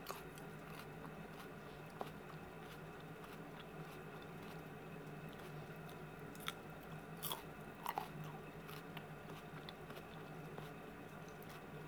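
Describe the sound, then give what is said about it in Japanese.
Raw cabbage leaves being chewed, with soft, faint crunches and a few sharper bites scattered over a steady low hiss, and no talking. “ほんと美味しい。キャベツってこんな甘いんだね。”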